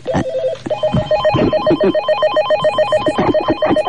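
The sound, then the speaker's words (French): Telephone ringing at a switchboard, a loud electronic ring repeating in quick warbling bursts with a steady rhythm, no voices over it. “Mais avant, j'ai un coup de fil à passer, ah, où j'ai reçu un coup de fil. Voilà, je m'approche vers le standard.”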